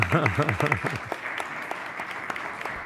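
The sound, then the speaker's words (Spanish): Audience applause at a forum on international HR certifications, thanking a speaker after his talk. A voice speaks briefly at the start, then a steady wash of clapping continues, moderately loud and even. “Muchas gracias, Juan Carlos. Un aplauso, Juan Carlos.”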